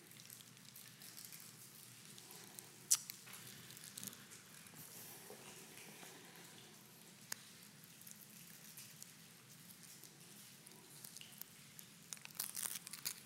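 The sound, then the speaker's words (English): Faint crinkling and tearing as the cellophane top of a prefilled communion cup is peeled back, a soft papery rustle broken by a few sharper crackles. “There's two parts to it. The cellophane on the top, pull back.”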